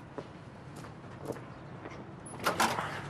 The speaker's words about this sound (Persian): واکن درو ببینم.